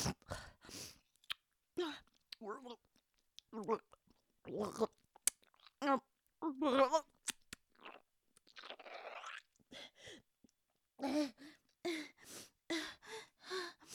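A person retches and gags through a series of short, strained bursts of gasping, gurgling throat sounds and wet heaves, separated by brief silences, voiced in a dramatic performance.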